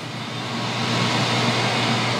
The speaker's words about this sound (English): This is the sound of a power generator starting up.